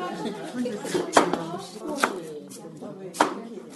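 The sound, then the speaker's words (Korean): A knife chops radish into thick pieces, giving a few sharp, loud thuds on the board with softer taps between, while people talk throughout. “일단은 무부터 썰을 거예요. 아, 무 요만한 사이즈로 썰어주세요. 도톰하게. 반만 썰으면 되죠, 이렇게.”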